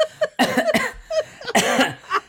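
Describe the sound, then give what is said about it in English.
A person deliberately fakes weak, pathetic coughs, as if trying to convince a doctor of illness: a series of short, rough hacking bursts in quick succession, fairly loud. “And so you just do a few more pathetic coughs.”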